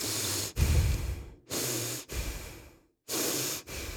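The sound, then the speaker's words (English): A person imitates someone's heavy breathing through the nose and mouth: several long, loud, raspy breaths in and out, separated by short pauses, with no talking. “he just like breathes like that”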